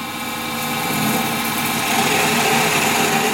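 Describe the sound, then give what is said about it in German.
A hand lathe turns a rotating wooden block while a cutting tool sheds fine shavings. It makes a loud, steady droning hum with a broad hiss that rises slightly and holds, with no talk. “Sofort lösen sich feine Späne vom Holz und fallen am Boden. Zentimeter für Zentimeter dreht er vom rotierenden Stück Holz ab.”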